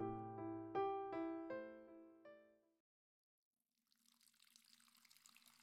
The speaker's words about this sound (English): Grandma washes the T-shirt.